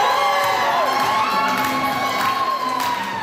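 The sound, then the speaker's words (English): A crowd cheers, whoops and shouts as a dozen grandmothers in traditional handmade clothing walk a fashion show runway at a Winnipeg celebration of African culture. The loud, continuous cheering includes high children's shouts throughout. “What you're hearing is the sound of a dozen grandmothers walking their way down a runway this weekend, dressed in their best traditional handmade clothing.”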